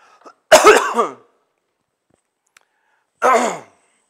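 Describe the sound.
Throat clearing and coughing in two separate rough bursts: a longer, ragged one first, then a shorter one after a quiet gap with a faint click between them. No talk.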